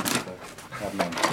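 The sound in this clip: A plastic injection-moulded part is worked into its slot, giving a few dry clacks and scraping rattles in quick succession.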